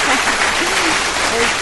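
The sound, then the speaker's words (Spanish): Applause from a group at an anime fan meeting: a dense, steady patter of clapping through the whole brief moment, with a voice faintly audible beneath it. “Un fuerte aplauso.”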